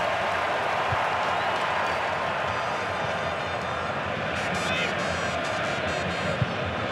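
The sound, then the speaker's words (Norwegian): Stadium crowd at a football match cheering as David Beckham appears on the big screen with his son, a steady broad roar of many voices and applause that holds at an even level throughout. “Og David Beckham på storskjermen med sin sønn. Det grunn til jubelen dere hører.”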